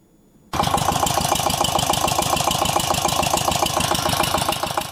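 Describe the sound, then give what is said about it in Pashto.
An engine-driven water pump drawing water from deep wells to irrigate melon fields in Helmand starts abruptly after a brief quiet moment, then runs loudly with a steady, rapid chugging pulse. “کروندګر د پالیز دپاره اوبه د ژورو څاګانو نه د واټر پمپ ماشین په واسطه راباسي.”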